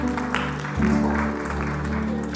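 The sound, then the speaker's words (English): Audience applause for volunteers after a trick demonstration, a steady, moderately loud patter of clapping over a low hum, sustained throughout. “Thank you very much. Give my volunteers a nice round of applause.”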